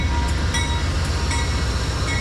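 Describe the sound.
An eastbound passenger train runs on the improved track of the Milwaukee–Portage route, a loud, steady rolling rumble with a few faint, sharp clicks recurring on top.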